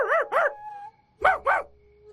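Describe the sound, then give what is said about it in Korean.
A human voice imitates a dog barking, with four short yapping barks in two quick pairs separated by a brief pause. “이번에는 제대로 해보자 싶어서 목을 쭉 뽑고 개처럼 짖었지. 콩콩콩.”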